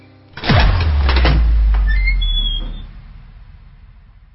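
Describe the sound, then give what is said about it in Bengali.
A door opening in the distance: a low, steady rumble of about two and a half seconds that slowly fades, with faint high squeaks near its end and no talking. “ওই দূরে খুলে গেল আরেকটা দরজা।”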